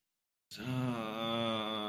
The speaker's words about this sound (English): Groan as you do it. Okay, I'll see what I can do. Not sexual groan, just like exasperated groan.